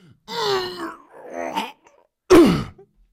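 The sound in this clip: A voice imitates straining groans during the last two or three reps on a 500-kilo leg press: three drawn-out vocal moans, the first two moderate and the third shorter, louder and sharply falling in pitch.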